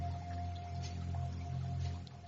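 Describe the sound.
Water sounds under music: a steady, even liquid wash with a sustained tone held across the whole short stretch, continuous and unbroken with no talk.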